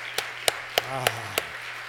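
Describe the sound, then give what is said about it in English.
Five sharp, evenly spaced claps in a church as the audience gives God a hand, each crisp and separate, with a brief voice heard between them. “And that, you can give God a hand. Can you give God a hand?”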